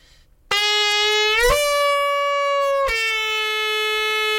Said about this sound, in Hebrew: בוא נשמע תקיעה שהיא עם עליות וירידות או שינוי קול עד כמה שאתה יכול.